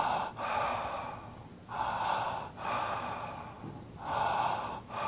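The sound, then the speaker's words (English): Connected breathing, with each in-breath flowing straight into the out-breath without a pause. Several steady, breathy rushes swell and ease back in an unbroken cycle, moderately loud and alone. “a connected breath is a breath where the in-breath and the out-breath flow as a unit, and it sounds like this.”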